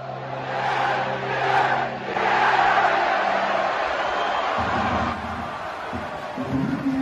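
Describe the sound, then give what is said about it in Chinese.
Wrexham football fans celebrate promotion inside the stadium, a dense, sustained roar of shouting and cheering voices that stays loud throughout, with stronger surges early on. “咱们听一段雷克瑟姆这周末升级之后，他们的球迷们在球场庆祝的音频吧。”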